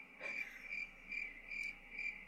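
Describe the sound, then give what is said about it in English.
Crickets chirping in evenly spaced pulses, five high-pitched trilling bursts at a steady rhythm over a faint background hiss, quiet and with no voices. “I like the crickets. Oh, I love that.”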